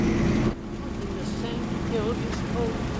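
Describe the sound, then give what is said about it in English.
Engine drone of a ride-on lawnmower towing a trailer as it careers downhill, a loud, steady low rumble that drops back slightly after a sharper first half second, with a voice speaking over it. “Is that a lawnmower?”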